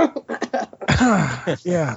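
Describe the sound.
Someone clears their throat in a few short, rough bursts, followed by a longer voiced stretch. The sounds are loud and close together.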